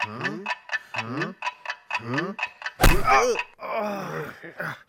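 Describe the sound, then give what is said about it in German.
Walrus calls: a rapid string of short, harsh, grunting groans that sweep downward in pitch, then a louder, rough rasping roar that trails off. “Ich glaube, das kenne ich. Das ist ein Walross.”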